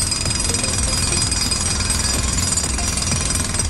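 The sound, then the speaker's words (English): A big drill hammers away at an old fireplace, breaking it out with a loud, continuous rapid pounding rattle that stays steady from start to finish. No talk is heard. “And they will be using probably a big drill to try and get an old fireplace out.”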